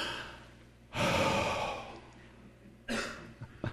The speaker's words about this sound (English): Just take a deep breath, would you? Just try it.